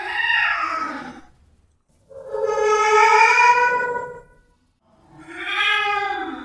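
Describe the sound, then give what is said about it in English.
A cat meows three times in a quiet house, each meow loud and drawn out and separated by short silences, with the middle call the longest. “That cat! Yeah! It sounds huge, doesn't it? That's because it's so quiet in the house.”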